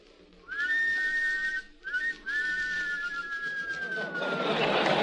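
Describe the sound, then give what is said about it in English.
Two men wolf-whistle together at girls in close harmony: a rising glide, a short second rise, then a long, drawn-out falling note. The whistles are clear and loud. “when we whistled, how would the girls respond”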